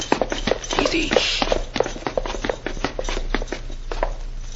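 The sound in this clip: Footsteps climbing a set of stairs in a hidden passageway, part of a radio drama: many firm, evenly spaced thuds in a steady rhythm, one after another throughout.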